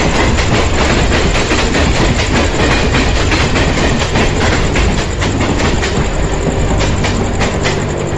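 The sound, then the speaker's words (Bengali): A train roars past at full force, a loud, steady rumble of engine and wagons with a rapid clickety-clack of wheels running throughout. “আর সঙ্গে সঙ্গে সামনে দিয়ে রেলগাড়িটাও গর্জন করতে করতে বেরিয়ে গেছে।”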